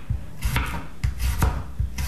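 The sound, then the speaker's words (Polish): A knife slices a large peeled garlic clove into thin slices. Several crisp cuts land in an uneven rhythm, each with a short dry scrape, with no talk. “Spory ząbek czosnku obieramy i kroimy na plasterki.”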